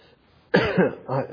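Coughing from a tickle in the throat, two short, rough bursts separated by a brief pause, the first louder and longer than the second.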